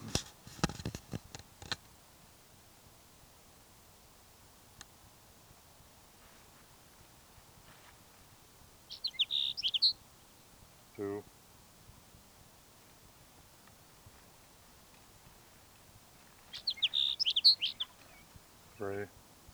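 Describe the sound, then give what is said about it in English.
A sage sparrow sings two brief, high chirping phrases separated by a long quiet stretch. Faint rustling, a few soft clicks and a burst of handling noise at the start surround the song. “Sage Sparrow number 5.”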